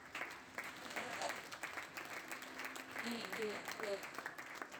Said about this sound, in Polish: Oddajmy mu oklaski.